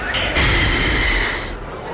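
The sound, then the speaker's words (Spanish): A person exhales hard into a breathalyzer during a police check for drunk and underage drinkers, giving one long, steady, breathy hiss that holds for over a second and then tapers off. “Toma, respira en esta máquina.”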